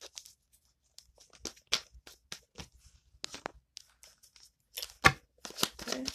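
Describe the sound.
Tarot cards are shuffled and handled in sparse, quiet papery riffles and snaps at irregular intervals, with one sharper flick near the end.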